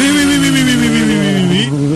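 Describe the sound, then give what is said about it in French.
A rally car engine pulls away hard from the service park after a repair, a loud buzzing drone that sags slightly in pitch, then jumps back up near the end. “Démarrage sur les chapeaux de roue, sur les chapeaux de roue pour Yann Berard”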